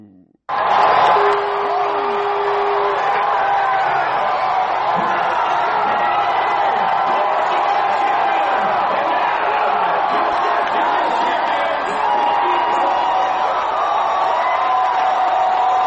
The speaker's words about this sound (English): baseball fans erupted in cheers early Thursday morning to celebrate the city's first World Series title in 95 years.